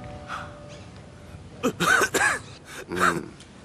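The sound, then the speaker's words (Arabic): Coughing from a patient with aching flank pain during a doctor's examination, heard as a few short, rough, voiced bursts grouped closely together against a quiet background. “أسعل مرة أخرى”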